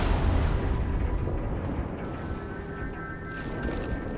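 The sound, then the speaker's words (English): Rockets exploding in a shooter video game: a loud, dense, continuous booming rumble with heavy low end. The blasts blur together without clear separate hits and ease off only slightly over a few seconds. “They're shooting a lot of rockets at us, friends.”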